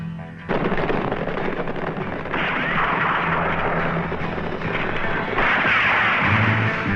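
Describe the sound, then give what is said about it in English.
Loud, dense gunfire: a rapid barrage of booming shots and rumbling blasts that runs for several seconds without clear pauses. “See how Chaco shoots?”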